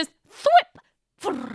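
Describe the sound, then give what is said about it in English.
A voice imitates a puzzle book being thrown against a wall, with a short breathy whoosh, a brief click, then a rough, rolling flutter. “And then it's the sound of my puzzle book hitting a wall.”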